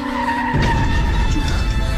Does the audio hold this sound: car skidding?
yes